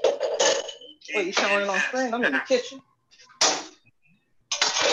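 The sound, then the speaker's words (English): Pots and pans clanging while cooking in a kitchen: a few sharp metallic clatters and knocks, heard between stretches of talking. “Sound like you whipping up something in them pots, man.”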